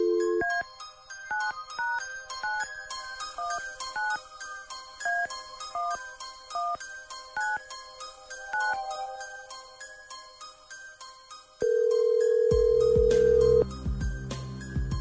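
Telephone number being dialed: a long run of quick, bright electronic tones in shifting pitches, then a single steady, lower ringing tone that holds for a couple of seconds before a burst of broader noise.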